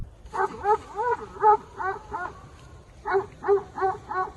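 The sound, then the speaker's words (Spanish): Mastiff dogs bark in a rapid run of loud, harmonic barks while defending a sheep flock against wild boars. After a short pause midway, another quick series of barks follows. “un vídeo que grabó con uno de sus mastines defendiendo al rebaño contra una manada de jabalíes”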